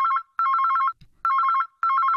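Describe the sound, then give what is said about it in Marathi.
A mobile phone rings on a table in a home, sounding a loud electronic ringtone in repeated trilling bursts separated by short silent gaps, with no other sounds. “मोहितेंच्या घरात टेबलावरचा mobile वाजतो.”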